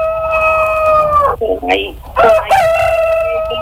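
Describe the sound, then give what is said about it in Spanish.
Rooster crowing, a loud, drawn-out, harmonic call with wavering pitch that breaks into a few choppy bursts midway before settling back into a sustained tone. “Ahí se oye un gallo, señora, por favor, no me mientas.”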